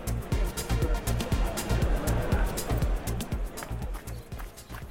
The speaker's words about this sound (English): I will begin with this introduction, then cut to a recording of me 1 hour ago running.